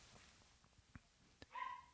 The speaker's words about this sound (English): I don't know if you can hear those dogs barking in the background. It's my neighbor's dogs are barking.